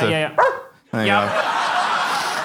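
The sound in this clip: A person imitates a dog barking with loud, harmonic vocal woofs in short bursts, followed by further voiced sound.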